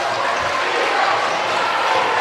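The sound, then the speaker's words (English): A basketball being dribbled on the court during a high school game, a few soft, dull low thumps under steady crowd noise and a voice. “Dribbling it in the box.”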